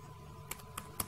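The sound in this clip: Light typing on a computer keyboard while entering a search among templates: a few quick, faint key clicks with short gaps between them and no voices.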